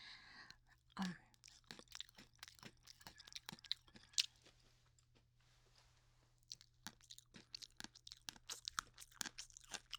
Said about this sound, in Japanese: 美味しいですね。もう一本食べちゃいましょう。